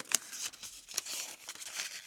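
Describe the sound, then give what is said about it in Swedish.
Rustling and crinkling of paper slips being drawn from a container for a prize draw: a few sharp crinkly bursts among softer, steady paper shuffling, with no voices. “Så vi häller över papperslapparna i samma byta. Då drar jag här.”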